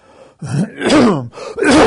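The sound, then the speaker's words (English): Phlegmy throat clearing comes as three gravelly, voiced rasps, each a short, rough burst with a slight groaning tone. “There's some phlegm, don't worry.”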